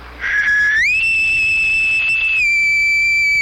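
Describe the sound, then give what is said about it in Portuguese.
A person whistles one long, sustained, clear tone that steps up in pitch early on, holds steady, then dips slightly and continues, loud and alone. “Cara, eu não sei se eu vou conseguir assobiar agora pra você, por causa eu andei tendo uma falha. Uhum. Mas é mais ou menos assim, ó.”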